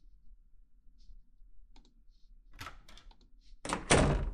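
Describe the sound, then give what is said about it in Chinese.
A door is opened. Faint clicks and soft rattles of the handle and latch are followed by a sudden louder, broad thud-like rush at the end. “那来吧，开门。”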